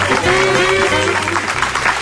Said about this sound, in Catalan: Aquest és un aplaudiment a tots els llibreters, a totes les llibreteres, a tots els editors, a totes les editores, als autors i també als lectors.